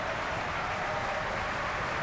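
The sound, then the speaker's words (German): Applause from an audience in a festival opera house, a dense, steady patter of many clapping hands that holds at an even, moderate level for the whole stretch, with no voices standing out. “Er bekommt großen Applaus hier im Festspielhaus.”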